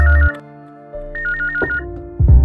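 A telephone ringtone plays a loud electronic melody of repeating high tones over steady sustained notes, with no voices.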